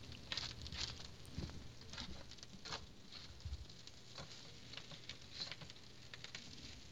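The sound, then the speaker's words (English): Faint, irregular patter and light scrapes come from stirring a chicken stir-fry with oyster sauce in a nearly full wok. No one speaks over it. “All right, let's stir this around a little bit.”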